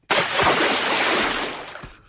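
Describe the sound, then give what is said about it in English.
Rushing, splashing water used as a special effect for the film Avatar: The Way of the Water, one continuous loud burst lasting about two seconds that gradually thins out at the end. “This is special effects for Avatar. Yeah. The Way of the Water.”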